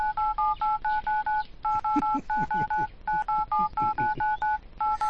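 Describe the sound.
Phone keypad tones as someone types out a text message: many short, bright beeps in rapid runs, separated by brief pauses, fairly loud and with no voices over them.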